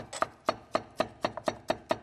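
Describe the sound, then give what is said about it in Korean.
A knife chops vegetables to even lengths on a board in eight steady, evenly spaced strikes. Each strike is a crisp, fairly quiet tap with no talk. “그래서 이거를 적당한 길이로 조율해서 썰어 주시면 음식을 만들어도 깔끔합니다.”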